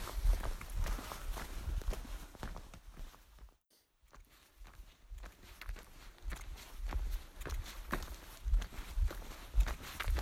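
Footsteps of people walking through a forest on a long hike make many soft, rhythmic crunching steps. They are fairly faint and continue throughout, apart from one brief pause.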